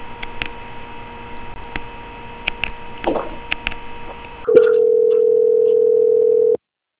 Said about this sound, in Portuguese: Só permanecer em linha que eu já estou transferindo a senhora.